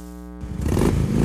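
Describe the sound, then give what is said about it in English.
A Harley-Davidson or Indian motorcycle engine revs: a steady, humming idle tone gives way to a louder, rougher swell of engine noise that holds high to the end, with no voices. “Unleash the rider within at AC Cycles Oak Hall, delivering performance one ride at a time. Stop by AC Cycles and check out the Harley Davidson and Indian bikes in their showroom.”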